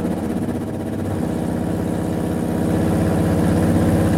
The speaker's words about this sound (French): Mise au point d'un moteur de qualification Renault.